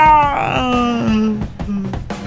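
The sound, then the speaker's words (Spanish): A voice imitates a child's wailing scream after a fridge door slams; the cry starts loud and slides steadily down in pitch, fading softer, followed by a few short clicks. “Y un grito que iba de más a menos. Ah, no, de más a menos, ¿cómo sería?”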